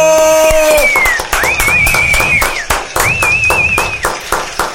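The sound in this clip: A live comedy show audience applauds with dense, rhythmic clapping and several shrill whistles rising and holding over it. The sound is loud and sustained throughout.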